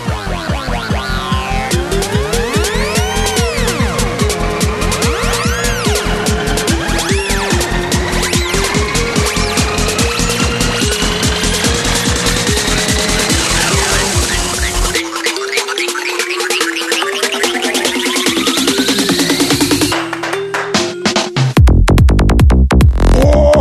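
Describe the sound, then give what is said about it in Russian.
A car subwoofer warms up with loud, bass-heavy electronic tones: steady pulsing low notes under sweeping synth glides, running continuously with no pause, the texture shifting abruptly near the end. “Никакие это не музыки. Это так, сабвуфер прогреть, ну и проснуться заодно. Раз уж за руль сел.”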